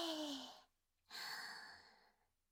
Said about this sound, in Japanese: 深呼吸していくよ。一旦息を吐いて、いくよ。はい、息を大きく吸って、